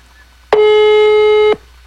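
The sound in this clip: A single telephone ringing tone on an outgoing call: one steady, mid-pitched tone lasting about a second, starting and stopping abruptly, alone over faint background hiss.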